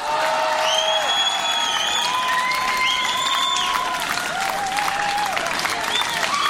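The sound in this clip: Ovation from the audience at the Esprit Rock festival in L'Encloître: dense, continuous applause, loud throughout, with cheering and sustained whistle-like shouts rising and gliding over the clapping.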